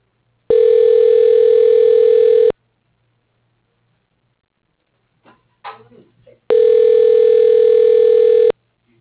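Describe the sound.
Ringback tone on an outgoing telephone call: two steady, loud tones, each lasting about two seconds, separated by a long quiet gap.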